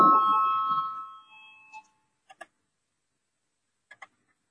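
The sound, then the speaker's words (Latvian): A bell rung in parliament to call a vote gives one sustained ringing tone that fades out over about two seconds, followed by a few faint, sparse clicks in near silence. “Lūdzu zvanu, balsosim par pirmo tieslietu ministra Bordāna priekšlikumu.”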